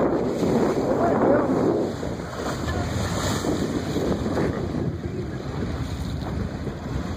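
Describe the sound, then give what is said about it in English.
Water splashes over the front of a small boat moving on open water, a heavy, broad wash that is loudest at the start and then settles into a steady rush under constant wind noise. “That water went over the front.”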